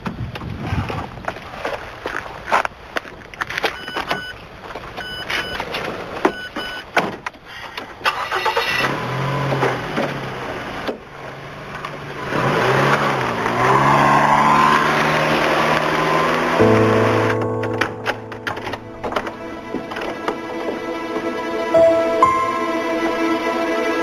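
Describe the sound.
A car engine starts and runs as the car drives off, with scattered knocks and clicks followed by a fuller, louder engine hum that holds through the second half, with no talk.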